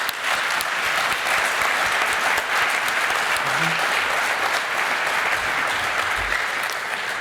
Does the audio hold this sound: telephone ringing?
no